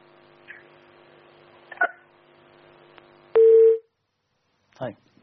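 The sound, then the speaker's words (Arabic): A telephone tone after a disconnected call: one loud, steady mid-pitched beep lasting about half a second, with fainter blips and clicks before and after it. “طيب قطع الاتصال.”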